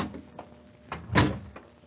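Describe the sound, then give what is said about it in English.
A door opens into a toy workshop: a soft, faint rustling creak with a short louder swell near the middle, heard without talk. “Do we go through this door, Santa Claus?”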